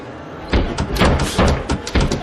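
A door being slammed shut in a dramatised scene: several heavy, booming thuds in quick succession, loud and abrupt against a low background.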